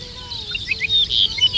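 Song of the ricotí, or Dupont's lark, a bird named after its call: several short, high, bright chirping notes over a low steady background.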